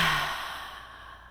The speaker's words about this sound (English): Let's just take one more deep breath in. And as you let that out, just let your shoulders drop.